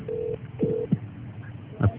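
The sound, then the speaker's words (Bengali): Telephone ringing with an incoming call: two steady, low electronic tone bursts sound one after the other, followed by a few short clicks and soft knocks. “একটা phone call আসছে।”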